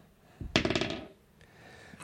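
Dice rolled during a tabletop role-playing game clatter across a hard surface in a quick burst of many bright clicking impacts lasting about half a second, then quiet.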